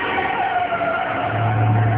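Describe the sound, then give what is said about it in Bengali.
A car braking hard with its tyres skidding: a loud, continuous squeal with a steady tonal whine over broad rushing noise, lasting about two seconds. “মোটামুটি অনেকটা দূর যাওয়ার পর শাফিন আবার break করল”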